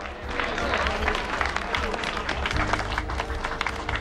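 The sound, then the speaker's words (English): A crowd at a bar near a flight boarding gate breaks into applause. Dense clapping crackles steadily throughout, fairly soft and mixed with a murmur of voices. “At the bar, Lisa joins in the applause.”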